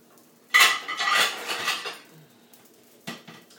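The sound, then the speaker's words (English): Kitchen clatter of utensils and dishes while vegetables are being chopped: a sharp knock, then a longer rattling run of clinks, and one last brief knock after a pause. “So right now, I'm going to start chopping up vegetables.”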